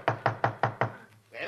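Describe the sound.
Five evenly spaced knocks on a door, firm and fairly loud, each a short woody thump in a steady rhythm, followed by a quieter moment.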